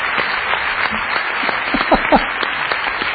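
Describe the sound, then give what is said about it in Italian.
A studio audience gives long applause: dense, even clapping holds steady for the whole stretch without a break. “applausi interminabili.”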